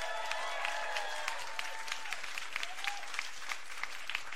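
Audience applause greets an award-winning radio producer introduced as a guest, a steady wash of many hands clapping at an even level from start to end.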